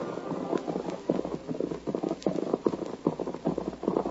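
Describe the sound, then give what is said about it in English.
Hooves of two horses ridden at night clop in a steady, driving rhythm, with many loud, even beats throughout and no voices. “Miles to the east, two men rode through the night.”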